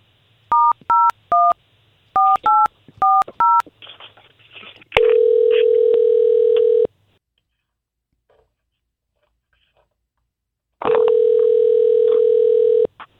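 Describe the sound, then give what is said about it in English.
Touch-tone telephone keypad beeps in a few quick groups as a number is dialed, followed by two long, steady electronic line tones of about two seconds each, separated by silence. “You gave us her number, so let's dial her up.”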